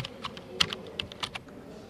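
Rapid typing on a computer keyboard as a man works at a computer beside a police interrogation room drawing a composite sketch: many quick, uneven clicking keystrokes over a low steady background hum.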